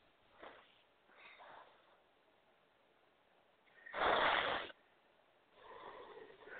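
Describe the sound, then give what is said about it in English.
Deep breaths taken right after a clearing prayer, a few soft breathy inhales and exhales with one louder, rushing breath in the middle, heard alone without talk. “And now take 3 deep breaths.”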